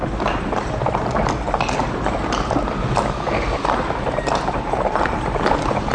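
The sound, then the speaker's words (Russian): Hooves clop steadily from exhausted horses pulling cabs along a road, in a dense, continuous patter of many hoof strikes under broad rushing noise. “извозчики с криком и бранью колотили лошадей, которые фыркали, упирались и не хотели ни за что в свете тронуться с”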